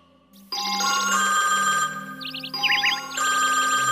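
An electronic phone ringtone sounds after a call is placed. It plays warbling, trilling bursts that come in repeated phrases and shift between higher and lower tones, with no voices.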